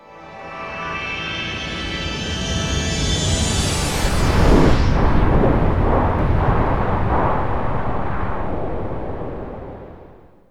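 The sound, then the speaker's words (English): A rocket launch roars as the rocket lifts off carrying penguins. A broad roar builds from the start, peaks near the middle and fades slowly at the end, while a high whine sweeps downward early on. “NASA flew the penguins up in a rocket at last.”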